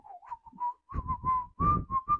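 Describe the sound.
A person whistles a fast-food burger jingle: a quick run of short, breathy whistled notes, fairly quiet and heard alone with no talk.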